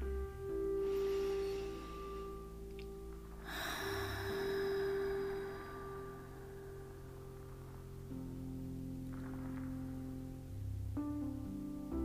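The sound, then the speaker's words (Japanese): Slow, deep breathing, with a few long, soft, airy inhales and exhales spaced apart over a quiet, steady tonal hum. “スローダウンをするという時間になったらいいなと思ってこうして呼吸をし”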